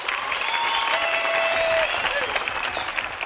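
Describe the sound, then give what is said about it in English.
Audience applause at the Ryman welcoming the Carter sisters and Mother Maybelle onto the stage, a dense, steady wash of clapping that holds loud for the whole stretch. “So let's have a good old-fashioned hand pat and welcome for our good friends, the Carter sisters and Mother Maybell.”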